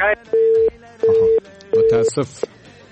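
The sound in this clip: A busy tone sounds after a phone call is cut off: three even, low beeps, each about a third of a second long and separated by short gaps, mixed with brief talk.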